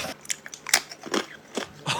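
Crisp, crunchy bites of Smith Chips eaten close up, ASMR style, a series of sharp crackling crunches at an uneven chewing rhythm, heard alone.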